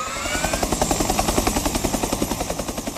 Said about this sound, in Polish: Nad Warszawą przelecie dziś w sumie około 60 statków powietrznych, w tym samoloty CASA i Herkules oraz wielozadaniowe F-16.